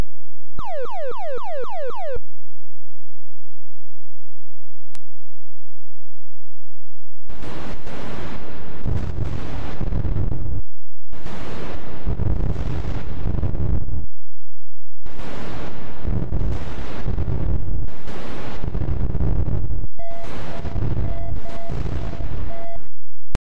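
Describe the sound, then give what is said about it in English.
Sound effects from the arcade video game Missile Command: quick descending electronic sweeps, then a gap followed by several long, loud, roaring noise bursts like explosions, with a faint steady tone running underneath. “So let's go ahead and take a little bit of a listen to the sounds from Missile Command.”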